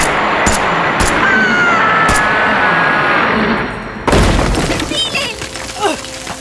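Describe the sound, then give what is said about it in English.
Gunfire after an order to open fire in a science-fiction drama: a few scattered sharp shots over a steady hissing background, then a heavier, louder burst of blasts with a clattering, noisy aftermath. “Sir! Sir, they're ready this way! Get back! Open fire!”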